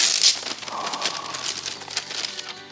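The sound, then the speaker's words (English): Wrapping paper on a present sealed with sellotape crinkles and rustles as it is pulled open, in a stream of irregular crackles and brief tearing bursts at a moderate level. “I love presents that are hard to unwrap because it just makes it more satisfying when you eventually do. You do like your sellotape, don't you? I do too, I love sellotape.”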